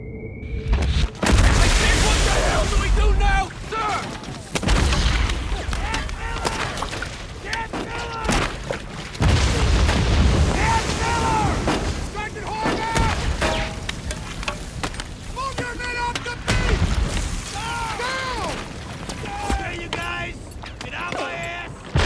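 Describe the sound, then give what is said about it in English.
Heavy artillery explosions in a beach battle scene from a war film boom out several times amid a chaotic, continuous roar, with shouting voices layered over the blasts. “Tom Hanks and the ensemble cast fighting under heavy artillery on the beach.”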